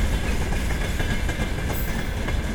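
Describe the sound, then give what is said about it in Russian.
Empty railway flatcars rush past without cargo, making a loud, continuous rumbling clatter with rhythmic clickety-clack from the wheels. The sound stays steady and dense throughout. “Замечательно звучат платформы, звучат замечательно просто несущиеся без груза.”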